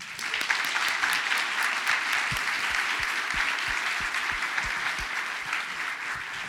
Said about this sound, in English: And finally, please join us in giving a warm town hall welcome to our entire panel.